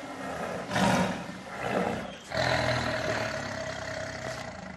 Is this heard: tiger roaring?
yes

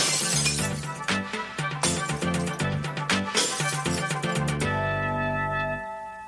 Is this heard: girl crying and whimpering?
no

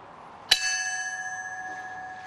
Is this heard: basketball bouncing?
no

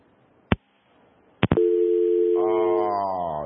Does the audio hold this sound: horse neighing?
no

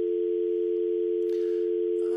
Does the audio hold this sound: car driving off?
no

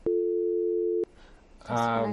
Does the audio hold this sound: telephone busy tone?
yes

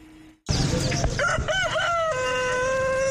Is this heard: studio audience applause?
no

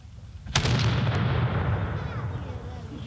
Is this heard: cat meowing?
no

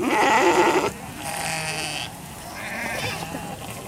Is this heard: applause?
no

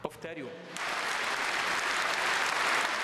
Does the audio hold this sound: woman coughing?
no

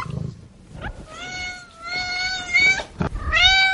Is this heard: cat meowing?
yes

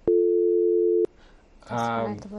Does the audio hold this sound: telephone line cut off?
yes

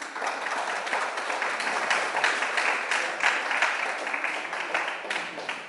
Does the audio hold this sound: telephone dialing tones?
no

